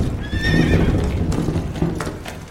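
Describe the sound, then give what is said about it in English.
A huge white horse harnessed to a line of mine tubs passes along a mine passage: a high whinny rings out early, over a continuous loud rumble of hooves and rolling tubs that carries on to the end. “They flatten themselves against the wall as a huge white horse passes, harnessed to a line of tubs.”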